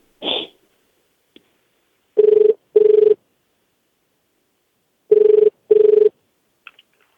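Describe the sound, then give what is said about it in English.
Ringback tone of a telephone after a number is dialed: two cycles of paired low, steady buzzing rings separated by a long silent pause, with a brief soft sound at the start and faint clicks at the end. “All right, we're dialing.”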